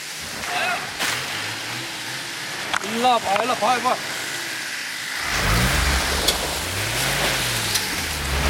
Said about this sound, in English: One of our vehicles is now stuck in the slushy mess. Real icy in here and wet, and so much weight in the cargo vehicles that he just can't get through it.